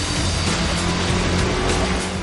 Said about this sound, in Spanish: John da marcha atrás